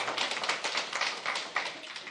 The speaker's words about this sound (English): Yo, we got to clap about that, right?